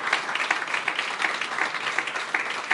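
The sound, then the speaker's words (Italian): Applause for Italian leader Giorgia Meloni at a party gathering. A crowd claps steadily at moderate loudness, with brief louder peaks in the continuous patter. “E quindi un applauso intanto a Giorgia Meloni, che orgogliosamente il nostro presidente e il presidente di tutti gli italiani,”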